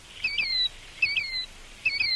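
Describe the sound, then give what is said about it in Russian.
An unknown bird calls three times in a steady rhythm. Each phrase is a pair of high, sliding whistled notes, fairly clear over a quiet background. “Ах, вот кто это! Незнакомая мне птица. Здравствуй, птица! Я тебя увидала. Скажи, это ты сейчас кричала?”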